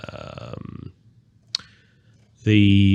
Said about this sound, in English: I'm just clicking through here